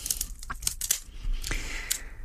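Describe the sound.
Scissors snip through a material that could fray, giving a few crisp, dry cuts and crunches in an irregular rhythm at a moderate level, with no voices.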